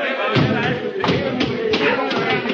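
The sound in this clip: A dull thud comes from someone dropping about six feet onto a ship's hatch, with a few heavy thumps over a busy, noisy background.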